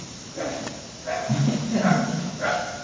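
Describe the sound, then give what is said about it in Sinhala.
A dog growls in low, rough, drawn-out phrases, several of them with moaning tonal rises, moderately loud and without talk. “අර පැත්තේ බල්ලෙක් කියනවා උගුරනවා ඒ සද්දේ මට ඇහුණා නේ.”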